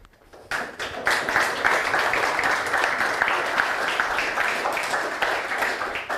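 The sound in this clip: An audience applauds after a talk. Dense clapping swells within the first second, holds at a steady, loud level, and eases slightly near the end.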